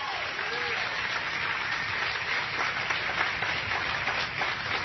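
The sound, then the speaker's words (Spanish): Applause from a church audience during a sermon: dense, steady clapping that fills the whole stretch at an even level without pausing. “Venga y dele fuerte el aplauso al Señor de la gloria.”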